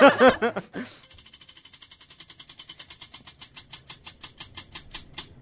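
A prize wheel spins, its pointer clicking rapidly against the pegs, then the ticks space out gradually as the wheel slows. Many sharp clicks follow a brief loud burst at the start.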